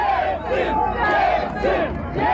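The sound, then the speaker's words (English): A crowd of Boris Yeltsin's supporters cheers him on in the Moscow streets during a right-wing coup, a sustained roar of many voices with shouts swelling and receding throughout. “In the streets, his supporters cheered him on.”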